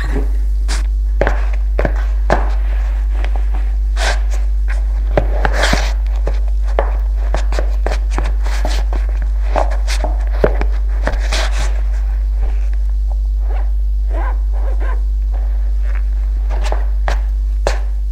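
Footsteps of a person leaving a bedroom and going down stairs: many steady, fairly even steps over the full stretch, with a constant low hum underneath.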